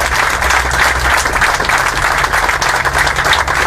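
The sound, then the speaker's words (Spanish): Applause from a crowd at a print workers' press conference during a labor dispute. The clapping is dense, steady and loud for the whole stretch, with no talk over it. “Un gran aplauso.”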